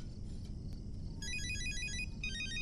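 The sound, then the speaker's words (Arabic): A phone ringtone sounds as an incoming call rings, a bright electronic melody of quick repeating high notes that begins partway through over a steady low background rumble. “بابا تليفونك عم بيرن. بابا رد.”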